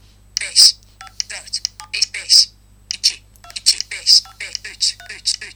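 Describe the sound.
Phone keypad tones from dialing a number in Skype, a quick run of short beeps in uneven clusters, with a person talking alongside.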